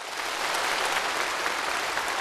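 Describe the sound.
Warm applause at a national science and technology awards ceremony: a thick, even wash of many hands clapping, steady and sustained, with no voices over it.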